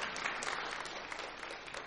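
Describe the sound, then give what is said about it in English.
An audience clapping hands: a dense, even patter of many claps that runs steadily throughout without a clear pause. “Somebody give me a hand clap for that. Okay, there we go.”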